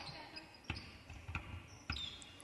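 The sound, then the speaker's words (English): Basketball dribbled on a court during a game: a few sharp, evenly spaced bounces cut through steady background noise. “And they're dribbling down to the corner.”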